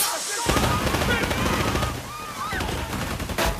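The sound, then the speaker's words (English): Video game shootout in an office, with shotgun blasts and machine gun fire around the character Payne: rapid, loud, overlapping bursts of gunfire that keep on nearly without pause. “A member of staff goes down as papers are shredded by the hail of bullets. Shotgun slugs punch right through the metal cabinets around Payne.”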